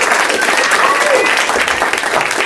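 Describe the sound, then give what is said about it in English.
A live audience at the UCB Theater in Los Angeles applauds loudly and steadily in a thick, continuous burst of clapping, with a voice audible over it. “Doug Loves Movies is coming to you from the UCB Theater in Los Angeles in front of a live audience. That's them.”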